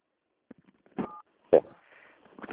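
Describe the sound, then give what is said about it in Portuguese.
A telephone keypad button tone sounds during a phone call as one short, steady beep, surrounded by faint clicks and brief bursts of voice. “É porque está apertando os botões, aí eu não estou conseguindo ouvir o senhor.”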